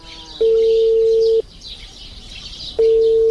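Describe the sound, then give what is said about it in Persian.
An unanswered phone call rings with a steady mid-pitched ringback tone: two long tones, each lasting about a second, separated by a longer pause, over a faint background hiss. “زنگ تیر میکنه خود جواب نمیده.”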